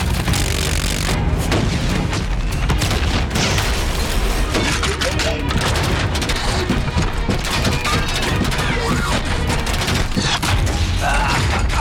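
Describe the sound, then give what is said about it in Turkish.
Rocket fire and exploding rockets form a dense, unbroken barrage of booms and blasts that stays loud for the whole stretch, with no clear gaps between impacts. “Ateş. Roketler yolda.”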